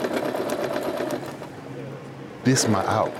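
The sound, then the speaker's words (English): A sewing machine stitching in a prison workshop runs in a rapid, continuous mechanical whir. It eases off near the end as a voice briefly comes in. “I zone out and I just sew.”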